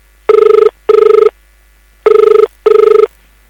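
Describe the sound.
A telephone rings for an incoming call, sounding two loud double rings, four trilling electronic bursts in pairs separated by a short pause, with nothing else heard.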